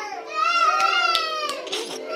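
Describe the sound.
High-pitched voices of children and infants at an orphanage outside Port-au-Prince, Haiti, with one child's wavering, cry-like voice held for about two seconds.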